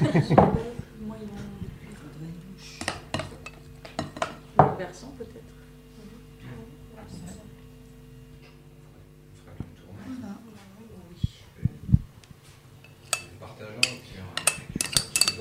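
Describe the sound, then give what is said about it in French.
Tablespoon clinking against metal financier moulds while batter is spooned in, a scattered series of light taps and scrapes of varying loudness, heard under some talk. “Nous remplissons les moules à la cuillère à soupe, ce qui est relativement long.”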